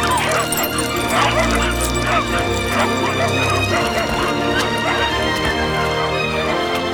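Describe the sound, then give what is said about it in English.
Puppies barking and yipping as they pour out of a shop, with many overlapping high yips and barks running loud and continuous throughout. “The puppies pour out of the shop.”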